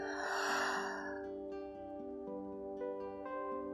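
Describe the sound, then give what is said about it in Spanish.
A single deep, airy breath opens a guided breathing practice. It lasts about a second over a soft, sustained musical drone, which then carries on alone. “Comienza esta práctica inhalando profundo por tu nariz y por tu boca deja salir todo el aire.”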